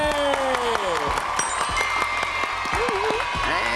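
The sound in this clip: Audience applause at a Thai children's event as the team Megadina receives a certificate from the Safe and Creative Media Development Fund. The clapping is steady and sustained, with voices and tonal sounds heard over it.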